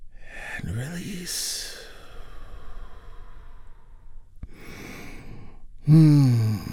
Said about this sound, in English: Let's start together with a big, deep healing breath right now.